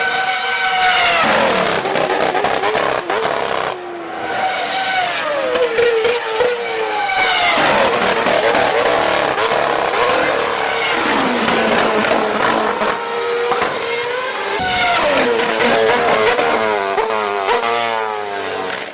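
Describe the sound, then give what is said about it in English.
Grand Prix race cars of the 2011 era scream past one after another, their loud, high-pitched engine wails rising and dropping with gear changes in an almost continuous roar. “I feel very fortunate to actually go and see a Grand Prix live during this era, and that was at Silverstone in 2011”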